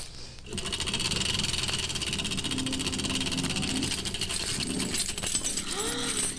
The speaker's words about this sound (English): He's doing it! He's spinning my straw into gold.